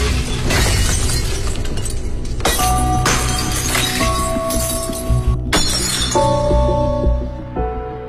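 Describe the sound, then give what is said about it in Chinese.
Glass shatters as a glass picture frame is smashed by a punch: a few loud, crashing breaks with bright, clinking tails that ring on between bursts before fading. “刚才这孩子一拳把玻璃镜框给砸碎了，手受伤了。 嗯， 大家听到那玻璃碎了的声音。”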